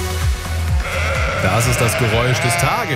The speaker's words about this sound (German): Ja. Eine Schafherde. Ganz viele davon heute in der Bonner Rheinaue.